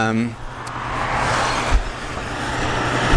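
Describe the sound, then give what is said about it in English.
Trucks drive past on a road in light traffic, making a low engine rumble and tire roar that swells and holds, with a brief thump midway; a voice speaks briefly at the start. “sorry for all these trucks going past, it's actually rather light traffic today.”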